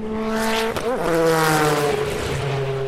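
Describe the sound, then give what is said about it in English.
A Nissan race car roars past at speed on a racing circuit. Its loud, harmonic engine note drops sharply in pitch as it goes by, then settles into a steady, lower drone as it pulls away. “That was one of those Tom Walkinshaw Nissans, which raced here”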